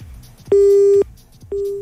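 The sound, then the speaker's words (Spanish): Telephone busy tone on a live radio call-in line after a child took the phone from their mother and hung up: two long, steady, loud electronic beeps separated by a short gap, the second cut off at the end. “Oh, le sacó el teléfono a la mamá y cortó.”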